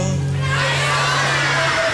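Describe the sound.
A crowd shouting together, a dense, loud mass of many voices held steady for about two seconds over a low sustained hum.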